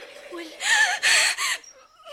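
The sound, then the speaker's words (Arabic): A curlew calls at night in a few short, warbling, trilling bursts in quick succession, fairly loud and high, with brief pauses between them. “سامعة يا أمي العجوز؟ ده صوت كروان. يا سلام، صوت كروان جميل بيسري والدنيا ليل.”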